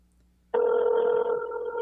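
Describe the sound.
Phone ringing tone on an unanswered call, a single steady electronic tone that starts abruptly after a near-silent moment and holds unbroken for over a second, with no voices.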